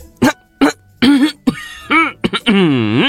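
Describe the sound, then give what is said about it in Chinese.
A man gives a deliberate, pointed cough as a hint. It comes as a loud run of short voiced bursts, some arching up and down in pitch, with the last drawn out longer. “展昭再一次咳嗽”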